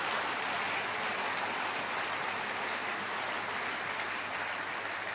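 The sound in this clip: Applause from a church audience, a faint, even, hiss-like mass of clapping that stays constant without pauses.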